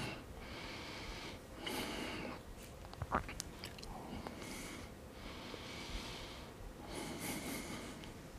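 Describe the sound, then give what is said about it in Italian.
Deep inhalations from a person exercising, a few loud, airy breaths rising and falling in separate bursts with short gaps between them, plus a couple of faint clicks midway. “Inspiro.”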